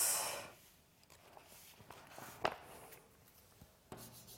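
Faint scratching and tapping strokes of writing on a board during a maths lecture, coming in short, irregular bursts with quiet gaps between them.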